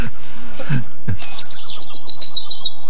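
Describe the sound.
Blue tit song in a field: a few soft low notes, then a thin high whistle that runs into a rapid, bright trill of many repeated notes, each slightly lower, ending abruptly.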